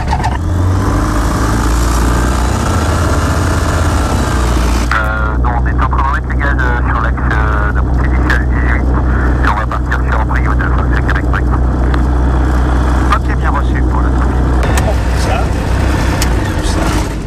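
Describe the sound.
A light airplane's engine starts up for a flight after the pre-flight check and settles into a steady, droning hum that runs throughout, with voices talking over it.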